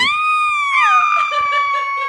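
A woman screams while getting into a sidecar. It is one sustained, high-pitched, piercing cry lasting about two seconds, heard alone. It holds steady, then dips slightly in pitch midway and trails on.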